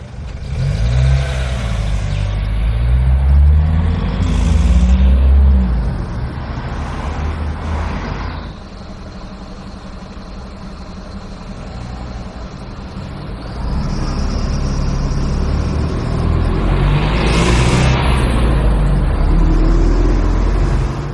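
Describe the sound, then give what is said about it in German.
Road traffic noise on a street in Cologne, with cars and trucks passing and engines rumbling and revving. The loud, continuous wash swells, eases, then rises again, with no voices. “Ja, das waren ein paar Sekunden Straßenverkehr.”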